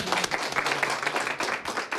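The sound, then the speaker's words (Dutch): Brief applause breaks out at an award announcement for a cultural prize. The clapping is dense and fairly even and lasts only a couple of seconds. “Applaus voor Katelijne.”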